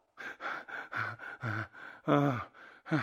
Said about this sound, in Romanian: Asta explică de ce gâfui puțin.